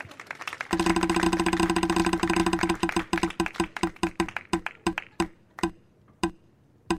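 A spinning wheel rattles in a rapid buzz of clicks, then the ticks slow and spread out one by one, about a dozen distinct clicks that grow farther apart as it winds down.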